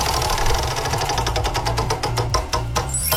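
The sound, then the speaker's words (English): Rapid clicking of a prize wheel spinning during a morning game show, a fast steady ticking over a low rumble that gradually spreads out and slows toward the end. “Are you going to spin the wheel for us? Let's spin the wheel.”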